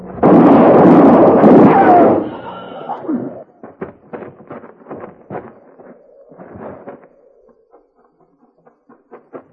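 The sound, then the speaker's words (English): A gunshot in a Western scene: one loud booming blast with a long roaring tail, followed by a scattered run of sharp knocks and clatters that gradually fade. “You shot him.”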